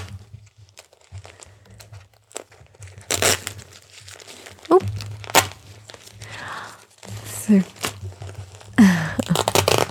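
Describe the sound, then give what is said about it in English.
A crinkly plastic diaper is handled and its tapes are pulled, producing many crackling crinkles and sharp tearing rips in irregular bursts, some loud spurts standing out from softer rustling. “I have a nice crinkly diaper for you with a little surprise. Can you help Mommy count the tapes?”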